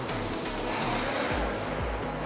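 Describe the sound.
A rowing machine flywheel whooshes during strokes: a continuous airy rush with repeated low surges, steady and moderately loud, with no voices.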